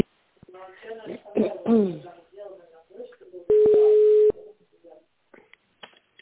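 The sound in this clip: A single steady telephone keypad tone sounds for just under a second after a recorded Russian-language phone menu voice asks the caller to dial an employee's extension. The tone is loud and even, with quiet line noise around it.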